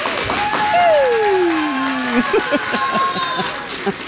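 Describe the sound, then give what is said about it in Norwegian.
Audience applause at a live show: a steady, loud wash of clapping through the whole clip, with cheering voices rising and sliding over it. “Fantastisk, dere kjempeflinke. Applaus til dere selv.”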